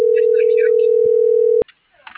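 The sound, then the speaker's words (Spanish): A telephone ringback tone sounds on an unanswered call: one steady, single-pitched tone holds for about a second and a half, then cuts off into near silence with faint voices. “No, está marcando y no me contesta.”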